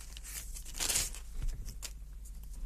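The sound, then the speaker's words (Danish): Crisp crinkling and rustling of tissue paper wrapped around a small item as it is handled, continuous with a louder crackle near the middle. “Jeg tror, jeg tager der en lille lækker sag her pakket ind i silkepapir. Den tager vi.”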